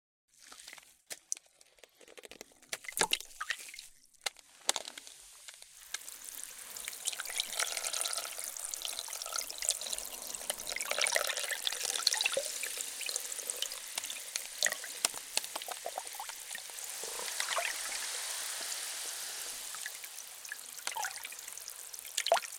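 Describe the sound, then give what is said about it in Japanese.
Water runs during rinsing, a continuous splashing hiss with small drips and crackles. It fills out after a few seconds and carries on steadily, with no voices. “では、お流ししますね。”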